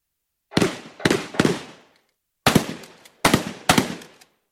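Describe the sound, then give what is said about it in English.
Real guns firing fake bullets at a stunt show: six loud, sharp shots with ringing decays, a group of three and then, after a pause, three more, with no talk. “Are those guns real? The guns are real, but the bullets are fake. Okay, they're starting now. You might want to cover your ears.”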